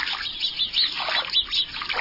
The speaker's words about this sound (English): Sometimes a bush they've settled in seems to be alive with their chatter, even though you can't see a single bird.